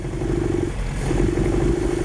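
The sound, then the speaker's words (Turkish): A car engine runs roughly with its fourth cylinder not firing. It gives a steady, loud, uneven low rumble with a rattling, clattery edge that holds throughout. “Çalışıyor ama iyi görünmüyor. Yani güzel çalışan aracımız koşmaya pek de hazır değil. Sorun burada. Dördüncü silindir ateşlemiyor.”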